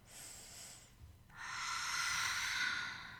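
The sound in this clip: Deep breaths taken as a relaxation exercise: a softer airy inhale, then a longer, louder rush of breath, steady and breathy, with no talking.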